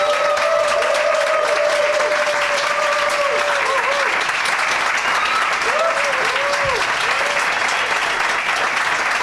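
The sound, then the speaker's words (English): Thunderous applause from a live audience greets guests coming out on stage: loud, dense clapping that holds steady for the whole stretch. “they're going to come out to thunderous applause”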